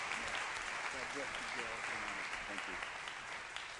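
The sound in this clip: A church audience applauds as a guest preacher is welcomed: steady, dense clapping runs the whole way through, with voices calling out over it.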